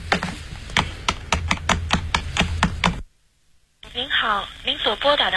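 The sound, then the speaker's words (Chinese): Telephone number being dialed by key presses, a quick string of many sharp clicking taps, then a short silence before a voice speaks. “我打电话给肖黛丽。”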